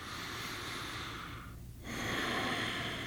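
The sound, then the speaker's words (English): A deep breath drawn in: a soft, airy hiss that dips briefly near the middle, then returns slightly louder and steady until the end. “No, that was not a nutritious breath of air.”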